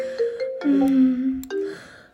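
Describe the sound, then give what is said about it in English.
A mobile phone ringing with a melodic ringtone, a series of sustained tonal notes that step up and down in pitch, fairly loud and alone. “Wait, that's my phone.”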